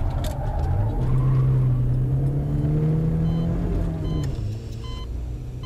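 A car driving: a steady, loud engine rumble with a humming tone that rises slightly and then eases, softening a little near the end, with no voices.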